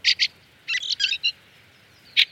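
Fieldfare calls from a flock descending to feed on fallen apples and hawthorn berries on a frosty morning: several short, harsh, high-pitched bursts, two at the start, a rapid cluster mid-clip, and two more at the end.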